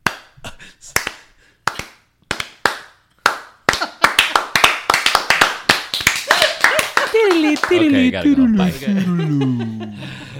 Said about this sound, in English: Woo! Awkward clap.